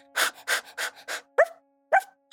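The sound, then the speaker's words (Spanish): A small, furry dog pants with a few breathy huffs, then gives two short, bright yips spaced apart, alone with no talk. “El perrito ladra de alegría.”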